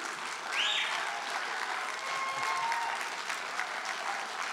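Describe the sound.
Applause from a church audience welcoming a guest speaker, steady and sustained at an even loudness from start to finish.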